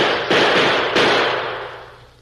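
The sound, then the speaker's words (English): Rifles fired together at a buffalo herd give two loud, sharp reports about half a second apart, each a booming crack followed by a long fading tail. “We're ready whenever you are. We'll all fire together.”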